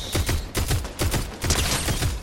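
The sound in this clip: Video-game gunfire in a Fortnite match where a pump shotgun is in play: a loud, dense string of many sharp shots in rapid succession, with no talk.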